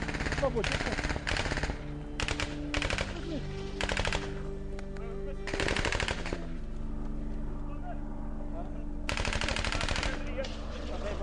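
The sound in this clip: Rapid bursts of machine-gun fire, called as rapid fire during a military contact in open fields, come in loud repeated volleys separated by short gaps, with voices talking between and over the shooting.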